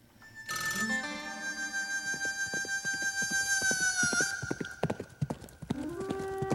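Incoming-call ringtone with a horse theme: a bright, sustained ringing tone lasting several seconds, layered over steady clip-clop hoofbeats that carry on alone after the tone stops.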